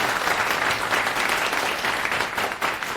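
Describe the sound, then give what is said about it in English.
An audience claps to welcome a speaker to the stage at a tech talk, a steady, full wash of applause that stays even for about three seconds. “Please welcome Eva.”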